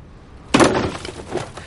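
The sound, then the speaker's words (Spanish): A Statue of Liberty statue is smashed with a mallet: a loud, sharp crashing impact gives way to rattling, crumbling debris, and a weaker knock follows near the end. “está destrozando la estatua de la libertad con una maza”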